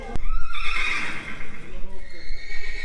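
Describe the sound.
A horse whinnies in an Istanbul stable housing eleven horses, giving one drawn-out, high, wavering neigh that rises out of a steady background rumble.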